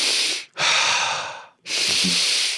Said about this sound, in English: The circular breathing, you know, like the